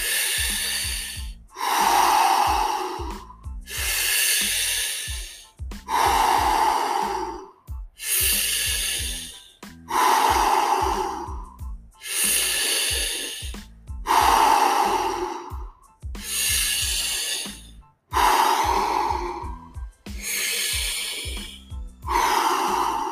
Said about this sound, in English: So we're gonna begin in 3, 2, 1, deep breath in.